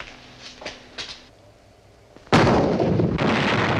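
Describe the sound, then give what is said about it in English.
Cannon barrage from siege guns firing at a fort from large wooden huts: a few faint thuds, then a sudden loud, sustained roar of heavy fire that continues to the end. “A barrage of cannon fire has begun from some large wooden huts some distance from the fort.”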